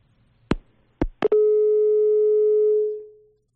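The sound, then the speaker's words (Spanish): A telephone line signal after a dropped call: a few sharp clicks, then a steady mid-pitched tone that holds for about two seconds before fading out. “Hemos perdido esa comunicación telefónica. Vamos a intentar recuperarla.”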